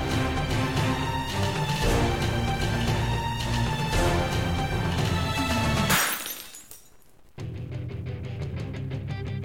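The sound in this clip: A smash sound effect of something breaking: a bright, shattering crash cuts in over loud music, and its noisy tail fades into a brief lull before the music returns.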